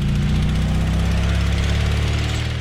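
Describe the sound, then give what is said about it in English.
An autonomous drone flies itself toward a dilapidated car on a dirt road, making a constant droning motor hum with strong low harmonics. The hum holds steady throughout with no voices. “Professor puts down the control stick, and the drone flies itself to the car.”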